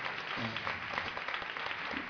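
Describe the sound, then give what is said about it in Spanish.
Faint, steady clapping from a small audience welcomes a baritone player being introduced at a school band concert, a continuous even patter. “Víctor, un aplauso para él.”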